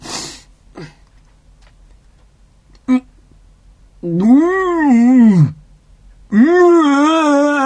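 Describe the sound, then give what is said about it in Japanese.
A person retching and gagging in two drawn-out, loud voiced heaves with wavering pitch, preceded by a few faint clicks and a short sniff. “なんでえずいた？”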